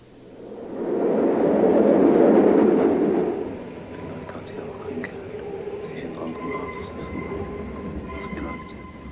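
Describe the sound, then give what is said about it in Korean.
A subway train on the move. A loud, rushing roar fills the first few seconds, then settles into a quieter, steady rumble with faint tonal whines on top. “다미엘은 도서관에서 나와 지하철을 탑니다.”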